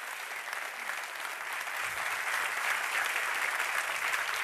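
Steady audience applause welcoming a guest onto a stage, a dense, continuous wash of clapping that holds at an even level from start to finish with no voices over it.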